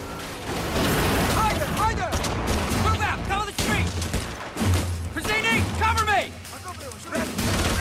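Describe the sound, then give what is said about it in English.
U.S. soldiers firing guns at insurgents, bursts of gunfire mixed with loud shouting voices and clattering impacts, dense and chaotic throughout. “U.S. soldiers fire at the insurgents.”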